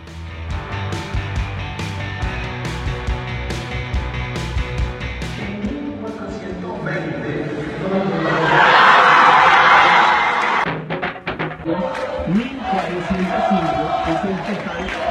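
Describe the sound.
A crowd celebrates a carnival group's contest victory in the early morning with a dense mix of voices, shouting and clattering noise. Loud cheering swells midway, then falls back to chatter.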